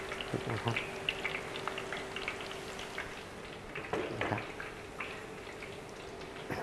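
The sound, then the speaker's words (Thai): Sliced banana frying in a pan gives a continuous faint sizzle scattered with light crackles and pops, staying low and even throughout. “เราสังเกตนะครับกล้วยที่เราทอดนะครับในกระทะนะครับก็จะมีลักษณะเป็นแผ่นนะครับ”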